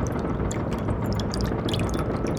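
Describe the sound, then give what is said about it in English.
Whiskey poured into glasses, a continuous splashing gush of liquid with bright, droplet-like ticks on top, steady and fairly loud throughout. “He splashed a couple of inches of the amber liquid into each glass and handed one to Conrad.”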